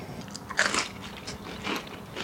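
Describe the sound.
Someone bites into crisp grilled bread topped with grated tomato, olive oil and salt, the Catalan pan tomàquet, producing sharp crunches with crackly chewing between them.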